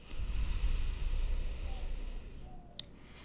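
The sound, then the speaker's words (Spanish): Breath exhaled through one nostril during a breathing exercise, a soft, low, airy rush lasting about two and a half seconds before it fades into near silence. “Tapamos la fosa nasal izquierda, inhalamos por la derecha Aguantamos el aire, tapamos la fosa derecha, exhalamos por la izquierda.”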